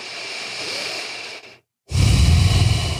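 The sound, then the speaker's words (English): Slow, steady breathing in and out through the nose during a guided breathing exercise: a long soft airy breath, a brief silent gap, then a louder, fuller rushing breath, with no talking. “Just breathe in and out through your nose for three breaths.”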